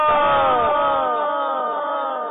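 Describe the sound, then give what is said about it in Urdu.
A crowd chants the Maslak-e-Ala Hazrat religious slogan: one loud, sustained shout of many voices held together for the whole clip without a break. “مسلک اعلی حضرت کا نعرہ یہ نعرہ مسلک اعلی حضرت کا نعرہ لگ رہا ہے ہمیشہ لگے گا.”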